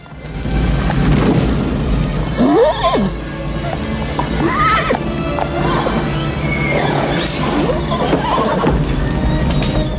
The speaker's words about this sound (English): All the horses are restless. Ginger and Beauty's heads are together. The hayloft and the stables are ablaze. The horses are tethered in their stalls.